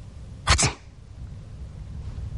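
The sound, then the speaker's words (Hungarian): A single sneeze bursts out in a quick double-pulsed blast, loud and breathy, then gives way to a low steady background hum. “tüsszentett, amint tetszik látni.”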